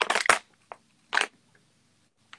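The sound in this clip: Crunchy crackling of a plastic water bottle being crushed, a few short, sharp crinkling bursts separated by brief silences, the opening burst the loudest.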